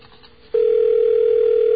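A telephone dial tone, one steady, unbroken hum that starts abruptly after half a second of faint noise and holds at an even, fairly loud level to the end.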